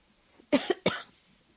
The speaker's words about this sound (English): excuse me. Oh, I don't. I think we're beyond asking excuse me for even little things like that there, because hell, we're coughing like crazy here